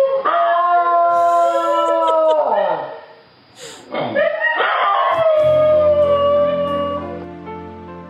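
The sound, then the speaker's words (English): A New Guinea singing dog howls in drawn-out, tonal wails that waver and slide downward in pitch. The howling stays loud, breaks briefly near the middle, then swells again into long, sustained notes. “I think I'm just gonna let the New Guinea singing dog play us out.”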